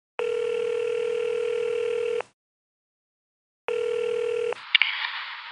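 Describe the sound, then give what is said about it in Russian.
Telephone dial tone, a steady buzzy tone held for about two seconds, then a pause before it returns briefly and breaks into a few short dialing beeps and clicks as a call is placed. “Теперь уже я звоню ей узнать, как дела и как она себя чувствует.”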